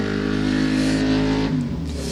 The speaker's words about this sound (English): Hang on, loud bike. Mate, we're doing a podcast.